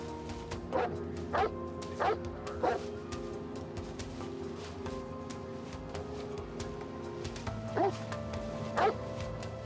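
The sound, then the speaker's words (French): Several sharp barks from a police sniffer dog tracking fleeing suspects into nearby woods. The barks come in two bursts, four close together, then a pause, then two more, over a steady low hum. “Un chien renifleur se mit sur leur piste.”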